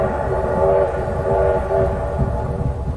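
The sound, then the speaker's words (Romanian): A train travels toward the Romanian front in Transylvania, a dense, steady rumble of the moving carriages with a droning hum layered over it, continuous and fairly loud. “În tren. În drum spre frontul românesc din Transilvania.”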